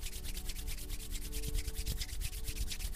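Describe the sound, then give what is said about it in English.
Palms rubbing briskly together to build heat during a hands-and-eyes relaxation exercise: a steady, loud, dry swishing friction made of many rapid back-and-forth strokes, with no voices. “Now start rubbing your palms together to create heat.”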